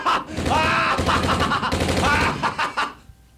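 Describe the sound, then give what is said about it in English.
Gunfire aimed at a World War I veteran: a loud, dense burst of shots lasting about three seconds, nearly continuous, then cutting off abruptly. “You shot that World War I veteran in the head.”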